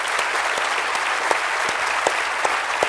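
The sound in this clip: An audience applauds to welcome a guest author at a book talk, with dense, steady clapping that holds at an even, fairly loud level throughout.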